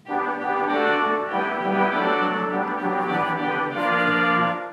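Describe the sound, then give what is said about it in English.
Reed stops on a theater pipe organ produce a full, buzzy sustained chord with rich, bright overtones and a few note changes, played loud and steady on their own. “We also have reeds in the organ that sound like this.”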